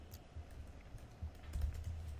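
Typing on a computer keyboard, a faint run of quick, light key taps at an uneven pace, with no talk over it.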